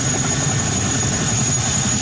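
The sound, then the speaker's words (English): A military National Guard helicopter engine gives off a steady, loud drone with deep low rumble and a constant high whine. The sound is unbroken throughout, with no voices. “A National Guard helicopter delivering troops and supplies to the region.”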